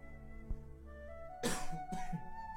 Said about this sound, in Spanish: Disculpen mi tos.